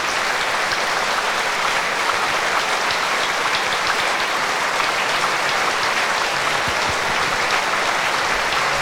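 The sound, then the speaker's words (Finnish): Concert audience applauding composer Chan on stage after the opening work: thick, continuous applause from a large crowd, holding an even loudness for its whole length with no pauses. “Chan vielä saapui lavalle siellä vastaanottamaan aplodeja ja kiittämään soittajia.”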